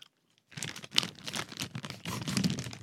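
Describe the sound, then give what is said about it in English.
A plastic gas-station candy bag holding hundreds of pieces crinkles and rustles as it is opened and handled. After a short silence comes a loud, continuous run of crackly crumpling with irregular sharper crunches and no talk. “Well, let me check the bag.”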